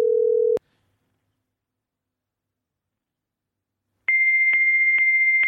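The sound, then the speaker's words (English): A phone call reaches a fax machine. A short low tone is followed by several seconds of silence, then a steady high-pitched fax tone that continues to the end. “It is going to a fax machine. That is very disappointing.”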